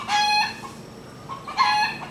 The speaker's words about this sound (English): I'm just getting a bit of support here from our friend the rooster. I'm sure he's going to squawk off very shortly.